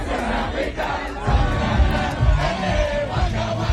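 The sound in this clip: Football fans celebrate a 0:0 World Cup draw against Spain with a dense, continuous crowd roar of shouting and cheering voices. It swells louder after the first second and stays loud to the end.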